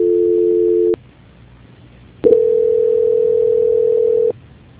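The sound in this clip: Telephone line tones while a call is transferred: a loud, steady hum-like tone cuts off, then after a short gap a second, longer steady tone sounds and stops.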